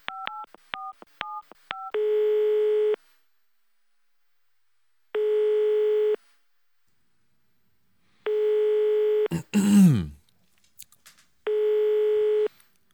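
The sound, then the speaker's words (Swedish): Touch-tone keys are dialed in a quick run, then a telephone ringback tone sounds as a call goes out: four steady one-second tones separated by pauses of about two seconds. A short burst of noise follows the third tone. “Så nu ska jag ringa henne och bjuda hit henne.”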